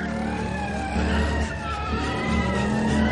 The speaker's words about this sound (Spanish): En la calle, dos coches de policía se aproximan.